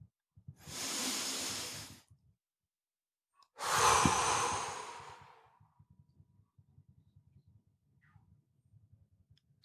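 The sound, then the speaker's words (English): A group breathes in and out together on a count: two long, airy breaths, each rising and fading smoothly, with a short silence between them and only faint low rustling afterward. “I'm going to count to three, and we can inhale and exhale as a community.”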